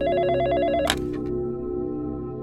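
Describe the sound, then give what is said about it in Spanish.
A telephone rings in the early hours of the morning with a rapid warbling electronic trill that stops abruptly after about a second, leaving a low steady hum. “cuando sonó el teléfono. Mi madre se levantó y contestó la llamada.”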